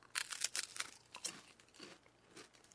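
Faint crunching of a caramelized Tokyo sweet being bitten and chewed: a few sharp, crisp bursts early on, then softer, scattered crunches, all quiet and with no talk.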